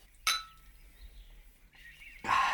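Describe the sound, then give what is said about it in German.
Two small glasses of port clink together in a toast: one sharp, bright clink early on, then a second near the end with a short ringing tone, quiet in between. “Da wollen wir zwei Gläschen mit Porto füllen und anstoßen.”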